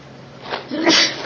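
A single short sneeze bursts out alone against quiet background hiss, building quickly to a loud breathy peak and then trailing off.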